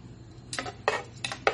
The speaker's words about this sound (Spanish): Disculpen los platos